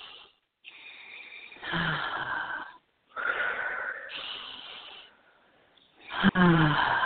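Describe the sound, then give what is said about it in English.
Deep breaths drawn in and slowly let out during a guided relaxation exercise: a few long, airy, hissing breaths, each broken by a brief pause, some with a slightly wheezy edge. “So let's just have everyone take in a deep breath and let it go. Let's do two more. Just breathe in.”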